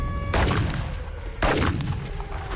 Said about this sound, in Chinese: 再跑就开枪了